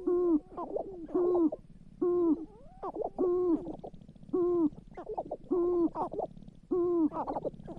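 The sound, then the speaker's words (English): Sharp-tailed grouse call: a repeated series of hollow, cooing hoots with a harsher note mixed in, coming in a steady rhythm of short bursts, faint and alone. “That's the song of the sharp-tailed grouse.”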